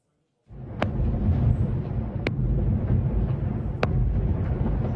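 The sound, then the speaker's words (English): Airstrikes and artillery fire pounding a town in southern Lebanon overnight: a heavy, continuous low roar with three sharp, evenly spaced cracks cutting through it. “This was the scene in Nabatieh overnight, where there have been dozens of strikes and artillery fire”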